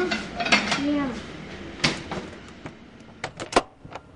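Dishes and cutlery clatter at a shared dinner of turkey chili and peach cobbler in a large kitchen, with many quick clinks and scrapes of spoons and plates of moderate loudness.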